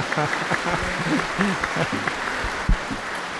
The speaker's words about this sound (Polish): wielkie brawa, tak.